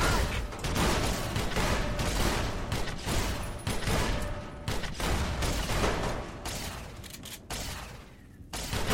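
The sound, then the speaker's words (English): Video game gunfire rattles off in many rapid bursts, loud and nearly continuous, with only brief gaps between volleys. “Out of practice with this gun. I'm not finding the range.”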